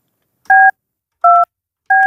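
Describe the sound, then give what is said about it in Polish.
Telephone keypad tones as a number is dialed: three short, clean electronic beeps, each a steady dual tone, spaced unevenly with silence between them. “W gorącym okresie końca roku szkolnego zadzwoniłam do pani dyrektor szkoły podstawowej nr 5 w Chełmie Ewy Jakubowicz-Machajskiej.”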